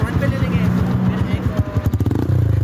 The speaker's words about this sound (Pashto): دا په چرسده کې موټر سایکل سوار سیلانیان دي.